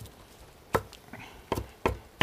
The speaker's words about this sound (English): I'm just going to chop a little bit, rough chop here.